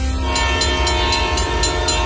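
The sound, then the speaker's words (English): Rumble of the Ontario Northland Northlander passenger train, with sustained horn-like tones held over a steady low drone and a regular rhythm of bright clacking bursts throughout. “Ontario Northland reminds residents that the Northlander passenger train will soon be operating in our region. Freight schedules are also changing, and tracks that have been quiet will be active again.”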